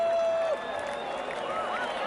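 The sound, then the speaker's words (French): Applause and cheering come from the reception and ticket office area at a sports World Cup final in the Jardin Vert. The crowd noise is steady and moderately loud, with thin whistle-like tones weaving through it. “On est même applaudi au niveau de l'accueil et de la billetterie de l'autre côté.”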